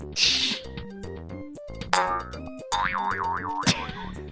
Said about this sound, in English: Found a mattress sound.